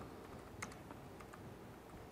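Faint keystrokes on a computer keyboard as a page title is typed into a mobile app builder: a few light, irregular clicks over a steady low background hum, with no talking.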